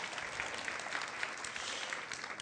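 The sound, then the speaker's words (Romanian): An audience at a religious gathering applauds a participant who has just recited a Bible verse, with dense, even clapping that holds at a steady level throughout. “Haideți să-l aplaudăm pe Cristi, că a îndrăznit.”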